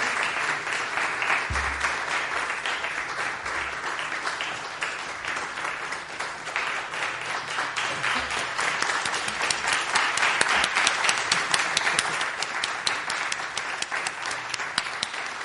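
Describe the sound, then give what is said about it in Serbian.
Sustained applause from a live audience at a poetry reading, steady dense clapping that swells slightly toward the middle and continues alone without speech throughout. “Žao mi je što moram da prekinem ovaj zaista lep aplauz”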